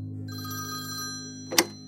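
A telephone rings early in the morning with a steady bell-like trill that ends in a sharp knock, fairly faint and heard alone.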